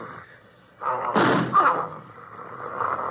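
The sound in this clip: A gunshot in a radio drama sounds as one sudden broad blast that trails off into a ringing tail, with a soft murmur of background sound before and after.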